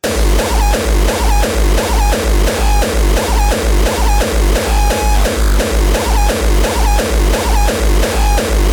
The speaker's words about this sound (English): Does your drum machine sound like this? You need it to sound like this.